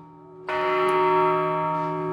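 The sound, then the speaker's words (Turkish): A bell strikes once and rings on with a loud, steady, sustained tone that barely fades, heard alone during a mountain climb as the wind picks up. “bence bu zil bana sakın çıkma demek istiyor.”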